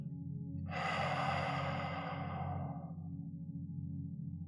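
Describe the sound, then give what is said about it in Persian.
A deep breath drawn in and let out during a guided meditation, a soft breathy hiss that swells and fades over a couple of seconds above a steady low droning musical tone. “یه نفس عمیق با من بکش دم و با بازدم به آرومی چشاتو ببند”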